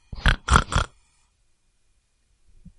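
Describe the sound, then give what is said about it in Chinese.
Three loud squealing grunts from a cartoon pig shouting happily come in quick succession, then silence with only a faint low grunt near the end. “太棒了！小猪高兴的大叫。”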